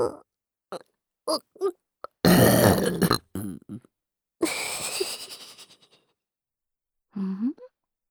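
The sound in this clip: Burping: two long, loud, rough belches among several short vocal bursts, with silent gaps between them.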